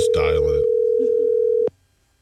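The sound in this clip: A telephone dial tone plays as a steady, single-pitched hum for under two seconds, then stops abruptly. A voice speaks briefly over the start of the tone.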